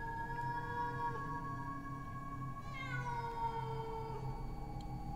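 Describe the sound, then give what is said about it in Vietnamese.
A female cat in heat yowls at night in a cemetery. A faint, drawn-out, wavering cry holds its harmonic pitch almost without a break, shifting slightly partway through, against low background rumble. “Nghe cái tiếng mèo kêu trong đêm, mơ hồ lại nghĩ đến trẻ con nó khóc.”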